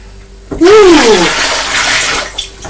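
Water poured back into a white bowl: after a brief quiet start, a loud continuous splashing rush runs for about two seconds, then tapers off near the end.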